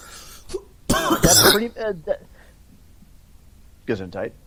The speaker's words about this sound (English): It was a cough.